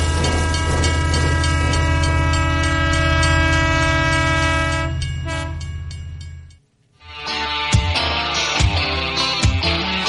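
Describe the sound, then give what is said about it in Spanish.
A train locomotive sounds a long, loud, steady horn over running noise. The sound fades out into a moment of near silence, then rhythmic clacking and clattering of the moving train resumes. “Seguimos montados en esta locomotora”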